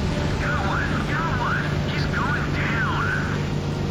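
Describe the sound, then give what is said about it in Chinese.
A P-40 fighter plane in the video game Battlestations: Midway drones with a loud, constant engine noise, while a voice speaks over it. “好，现在主角变换了啊，变成了洛克利尔少校，驾驶着 P 四零战机来追击正在撤退的日机。”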